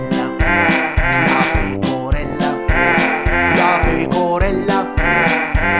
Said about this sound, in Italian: la pecora.